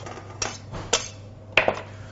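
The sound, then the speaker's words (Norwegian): Warm sliced potatoes are tipped into a bowl for potato salad, giving a few sharp clinks and knocks against the dish. Short gaps separate each clatter, and no one speaks. “Skjær dem godt i skiver. Tar dette her i en bolle.”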